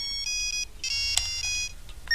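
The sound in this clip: A telephone rings with a bright electronic tone in short, regular bursts. The sound is repeated and insistent, heard alone without voices.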